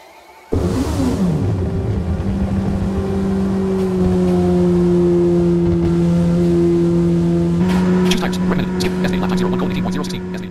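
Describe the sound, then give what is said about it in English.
A race car in a racing video game creeps through the pit lane at low speed, its engine a steady, even drone with a slight step up in pitch near the end. “Your car moves at the slow pit lane speed towards your pit box.”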